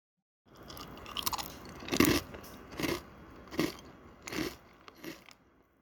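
Crunching of crispy breakfast cereal being eaten, a series of sharp, dry crunching bites that come in an uneven rhythm and fade at the end, with no talking.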